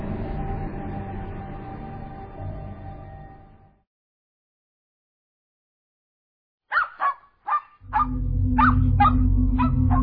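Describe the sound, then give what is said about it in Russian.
A dog barks excitedly in a run of short, sharp, high yips, first alone after a silence, then continuing over a steady low background. “встретил меня радостным лаем”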